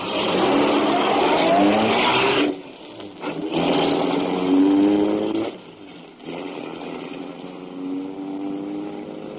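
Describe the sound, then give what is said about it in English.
A car drives with its engine roaring loudly and steadily, the level dipping briefly twice before the steady drive resumes. “Dawson and I drove out to Somerville Avenue.”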